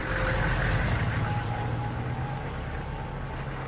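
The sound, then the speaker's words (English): Low engine rumble of a large armed military vehicle crawling past and veering away, a steady droning growl with a faint mechanical whine above it and no voices. “Around the corner crawls a large military vehicle. Not a word. The armed vehicle veers away to the right before it gets to them.”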